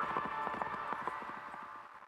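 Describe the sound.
A white horse gallops in a quick, steady rhythm of many muffled hoofbeats. They sound faint over a sustained tonal background and fade slightly toward the end.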